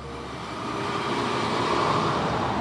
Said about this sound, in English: On a weekday morning, the corner of Cesar Chavez and Bryant is full of the sounds of people going to work.